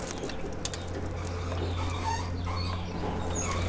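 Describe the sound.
Squeaking from a windmill's mechanism as a brake slows the turning sails: high, chirp-like squeaks come and go over a steady low mechanical drone.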